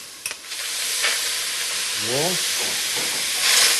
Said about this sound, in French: Tout doucement, j'ajoute un peu de purée de tomates.